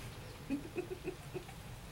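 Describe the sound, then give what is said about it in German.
Cuckoo clock calls come as a few short, soft, hooting tonal notes, spaced unevenly and faint against a quiet, hissy background. “Kuckuck ist eine Uhr.”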